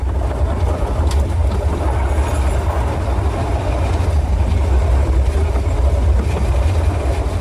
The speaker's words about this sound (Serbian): Drugujete sa zvukovima mašina, vozova. Da li vam je to umilna muzika kada čujete da prolazi voz?